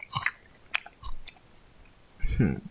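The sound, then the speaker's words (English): Crunchy chewing of a store-bought cookie: three short bursts of biting and crunching separated by quiet pauses. “I'm only eating this cookie because I'm on a podcast and I ain't got shit to talk about. But y'all get to see me eat a cookie. Cookie ASMR, you like that?”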